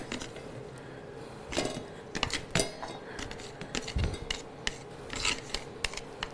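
Blanched bean sprouts being squeezed by hand to press out the water, many irregular soft crunchy rustles and squelches with light clicks of a dish, fairly faint and without talk.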